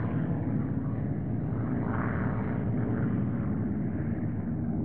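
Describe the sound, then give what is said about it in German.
Aircraft rumble in the sky, producing a continuous, loud, deep engine drone with a rough, noisy texture that stays steady throughout, with no voices. “Die Flieger, die am Himmel rumorten, waren die Flieger der anderen.”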